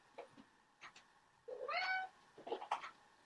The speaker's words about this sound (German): Ich versuche möglichst leise nebenbei die Katzen zu füttern, weil sie nämlich sonst noch mehr durchdrehen.